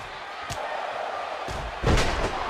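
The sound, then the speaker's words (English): A wrestler slams an opponent onto the mat with a running bulldog: a few dull thuds, the heaviest near the end, over steady loud background noise. “And Sting wins that tie-up contest and hits him with a running bulldog.”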